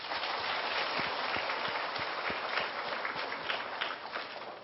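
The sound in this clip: Applause at a Buddhist Dharma talk during a day-long retreat: a crowd claps in a thick, even wash of hand claps that holds steady for a few seconds.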